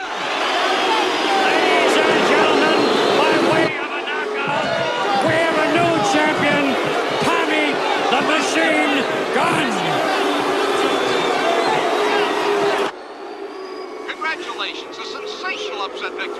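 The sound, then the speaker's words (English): An audience boos at a boxing match: a loud, dense crowd roar that holds steady, then drops in level and thins out near the end. “The audience boo as Tommy stands on a corner post, his hands in the air.”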